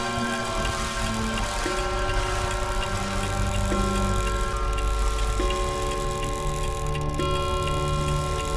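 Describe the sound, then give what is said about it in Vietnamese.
A wall clock ticks in a room at midnight, with regular faint clicks set inside a dense, sustained droning background and no talking. “Thứ duy nhất còn hoạt động trong căn phòng này chính là chiếc đồng hồ treo tường. Tiếng kim dây chuyển động khiến tôi đưa mắt lên nhìn”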